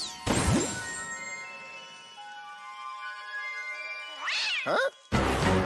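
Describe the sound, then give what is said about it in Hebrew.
A cat meows once, a short nasal cry at the start, followed by sustained musical tones and a couple of loud crashing bursts near the end. “או, תתרחק, חתול טיפש, זה אני.”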